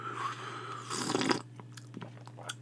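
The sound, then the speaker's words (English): A single quick slurping sip from a cup of stale coffee that has sat on a burner all day: one short, faint burst of noise, followed by a few soft small clicks in a quiet setting. “I've had two cups of coffee. I got number three sitting right here. Let me take a hit off this bitch.”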